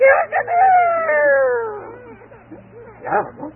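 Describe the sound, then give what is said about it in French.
A voice imitates a rooster crowing: one long, drawn-out crow whose harmonic tone slides gradually downward in pitch, followed by a few short voiced sounds near the end. “car quand le coq le réveillait, il”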